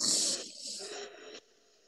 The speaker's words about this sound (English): So breathe in.